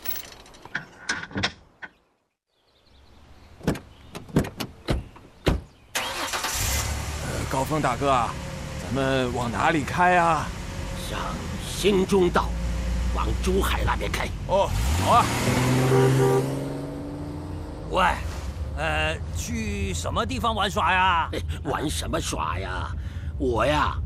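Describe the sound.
A car door thumps a few times, then a car engine starts and the car drives off. A steady rumble of the engine runs under people talking for most of the remaining time.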